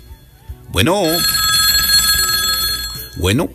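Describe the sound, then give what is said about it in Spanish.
A telephone rings for an incoming call, a loud, steady, bright electronic trill lasting about two seconds. A brief voice sounds just before and just after the ring. “Y vamos con llamada telefónica”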